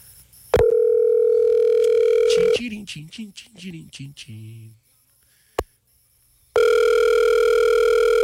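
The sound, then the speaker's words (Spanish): Telephone tones while calling someone: a steady electronic dial tone, then a quick run of short beeps at shifting pitches, a sharp click, and the steady tone sounding again at the end. “Vamos a llamarla a ver si nos contesta.”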